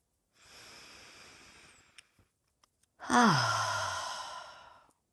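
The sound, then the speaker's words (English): Deep breathing during a guided meditation: one long, steady inhale, a brief pause with a few faint clicks, then a louder, longer exhale that turns into a voiced sigh falling in pitch before fading out. “And just take some deep breaths.”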